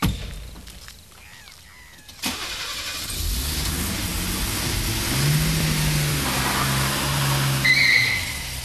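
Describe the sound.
A car starts and drives off: a sharp knock, then a low engine rumble that builds and holds at a steady, moderate level.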